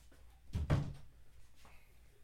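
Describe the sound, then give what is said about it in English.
A door is shut at home, giving one brief, dull thud followed by quiet room tone, with no voices. “I'm gonna shut the door. Hold on.”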